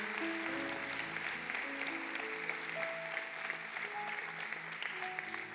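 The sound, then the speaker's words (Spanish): A church audience applauds in a dense, steady round that lasts the full stretch, with sustained music and held tones playing underneath. “Y mientras pasas, este aplauso es para ti, porque requiere valentía.”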